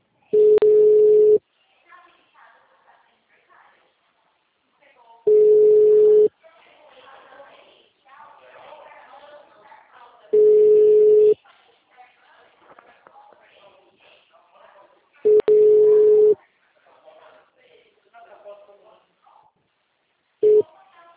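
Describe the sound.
Ringback tone of an unanswered outgoing phone call from a bank agent: four steady, mid-pitched one-second tones at even five-second intervals, then a fifth cut short, with faint voices and background chatter in the gaps.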